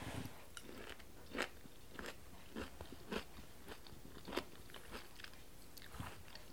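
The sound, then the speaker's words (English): Crisp biting and chewing of butter-braised radishes with fresh dill and black pepper: several sharp crunches spaced irregularly, with softer chewing between them and no talk. “our butter braised radishes with fresh dill. And let's give it a taste.”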